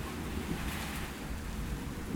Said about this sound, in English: Listen to the rain. Listen to the rain.